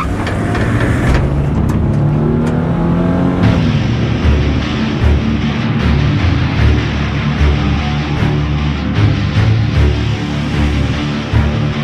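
A car engine revs and accelerates hard, its loud, continuous roar climbing in pitch early on, then holding at a high, steady drone with no voices.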